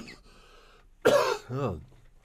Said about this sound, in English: End the 2010s in a choking fit on the air.